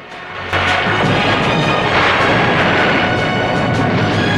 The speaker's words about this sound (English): and the control room is rocked by explosions. Orange fireballs erupt all over the platform as Bond rushes out of the crane and executes a perfect swan dive into the sea.